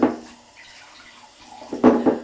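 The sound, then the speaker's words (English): Cold water poured over a child makes splashing, gushing rushes, a burst at the start, then a near-quiet stretch, then a louder, fuller pour toward the end, without talk. “What do you think if Mummy pours cold water over you?”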